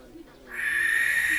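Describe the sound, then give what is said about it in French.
An owl calls with a single sustained, high-pitched tone that begins about halfway through and holds steady to the end. The call is faint. “La chouette locale.”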